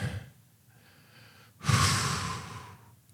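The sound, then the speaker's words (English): One deep breath in, heard as a single loud, airy rush lasting about a second. A fainter breathy sound comes before it. “I just take in a deep breath”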